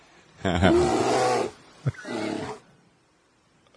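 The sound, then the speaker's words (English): Someone imitates bear sounds with a loud, low, throaty growl. After a brief click comes a shorter, softer growl, and then silence. “Bear sounds.”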